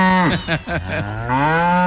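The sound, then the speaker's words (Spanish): A cow moos loudly during milking, giving one long, low, harmonic call of nearly two seconds that wavers in the middle and then holds steady to the end. “por acá vamos a ordeñar un ratico a Lolita. Lolita, siéntese acá, me toca que decirle así a Lolita. Siéntese acá para yo ordeñarla.”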